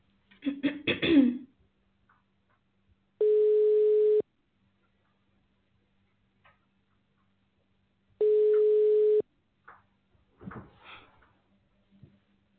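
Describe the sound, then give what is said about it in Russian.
Ringback tone of an outgoing phone call waiting to connect: two long, steady mid-pitched beeps, each about a second, separated by a long silence, with brief human vocal noises before and after. “Начинаем звонить абоненту, ожидайте соединения.”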